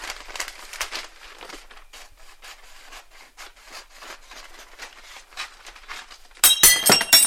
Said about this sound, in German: Oh nein, nein, nein, nein, nein. Ich tolpatsch die Tasse.